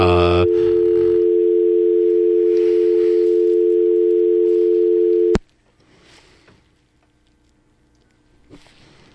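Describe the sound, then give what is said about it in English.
Loud, steady telephone dial tone holding one unbroken pitch for about five seconds, then cut off abruptly with a sharp click, leaving a quiet background with faint rustling. “let's dial him. And it's okay if we hear it on the air.”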